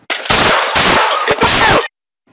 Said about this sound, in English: Body camera video shows him shooting a suspect on a crowded sidewalk.